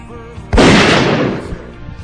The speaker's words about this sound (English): That's right. You heard the shotgun.